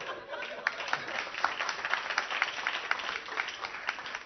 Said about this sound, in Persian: برای پرگار دست دادین ها، ای چاپلوسا، ای چاپلوسا.